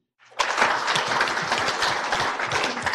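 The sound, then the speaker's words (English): Audience applause at a Northport city welcome for new staff, rising quickly from silence into a full, dense burst of many hands clapping that holds steady and loud to the end. “And thank you all for your applause.”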